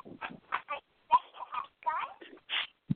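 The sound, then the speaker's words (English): A Pinkie Pie toy pony being switched on, its electronic voice chattering in a string of short, squeaky, speech-like bursts, ending with a brief low thump. “I can actually, let me turn Pinkie Pie on right now. I got her right here.”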